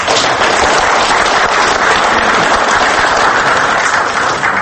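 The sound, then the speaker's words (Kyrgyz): Loud, unbroken clapping fills a screening of young filmmakers' work as the audience claps for them, a dense, uniform crackle of many hands with no pauses. “Мына ушуларга кол чаба турду.”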